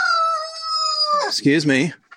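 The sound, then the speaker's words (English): A rooster crows loudly: one long, steady, high note that drops into a warbling, broken tail with a few rough clucking bursts at the end. “That was our one rooster here.”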